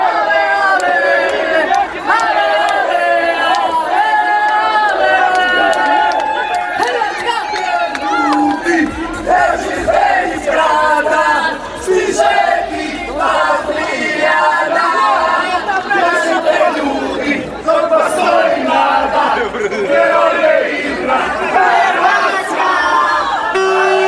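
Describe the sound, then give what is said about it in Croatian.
Croatian football fans in Sochi, Russia, chant and cheer in a massed crowd, with rhythmic sung chants, shouts and whoops rising and falling over constant loud chatter. “A donosimo vam i djelić u zavrele atmosfere koju su napravili hrvatski navijači koji su u ruskom Sočiju.”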